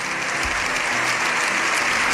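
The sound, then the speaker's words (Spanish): Sustained applause in a parliament chamber during a long ovation, a dense, steady roar of many clapping hands at even loudness throughout, with no voices standing out. “7 minutos aplaudiendo. Cortos se han hecho para los que aplaudían convencidos, medio incómodos para los que aplaudían por seguir la corriente.”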